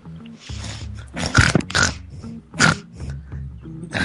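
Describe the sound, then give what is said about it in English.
A male pig grunts and snorts in several rough, irregular bursts, some loud and breathy, with quieter snuffling between them. “You want to talk to my pig? Here he is.”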